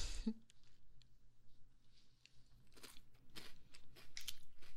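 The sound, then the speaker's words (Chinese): Crunching of a seaweed-flavored snack being eaten: a few crisp, dry bursts of chewing, louder toward the end, with no talking. “怎么样啊？好不好吃啊？味道不错吧？这个是海苔味的哦。”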